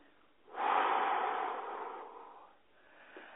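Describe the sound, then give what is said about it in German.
A slow breath out during a guided breathing exercise: one long, airy exhalation that swells quickly, holds steady for about two seconds, then softens, with a fainter breath following. “tiefer tauchen. Licht erfahren. Ausatmen.”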